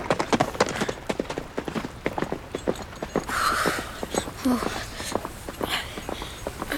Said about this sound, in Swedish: Han bara red därifrån och tog de andra soldaterna med sig.